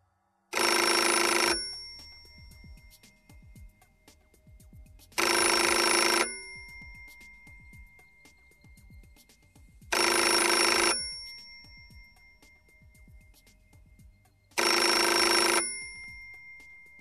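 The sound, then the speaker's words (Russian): An old telephone bell rings insistently in four loud, even bursts of about a second each. Longer silent pauses separate the bursts, and no voices are heard. “Телефон настойчиво звонил, и Алексей Владимирович”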